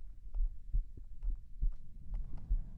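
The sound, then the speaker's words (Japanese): Heartbeat heard through a stethoscope pressed over clothing: soft, muffled low thumps in a steady, fairly calm rhythm, roughly two beats per second, with no talking. “今日の心臓の音はわりかしおとなしいかも”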